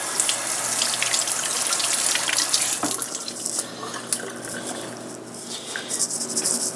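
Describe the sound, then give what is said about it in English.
Tap water runs steadily while a potato is rinsed under it, making a continuous splashing hiss. The flow shifts slightly in texture and stays fairly loud throughout, with no voices. “First thing I'm going to do is I'm going to prep the potato. I'm going to rinse it off.”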